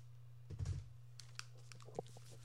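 Keyboard typing while someone writes everything down: a few soft, scattered key clicks, faint, over a low steady hum.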